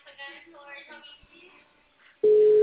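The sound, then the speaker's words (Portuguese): A telephone calling tone starts abruptly after a couple of seconds of quiet talk. The loud, steady, pure tone holds unbroken to the end. “O meu tá ligando. Deixa sua mensagem na caixa postal.”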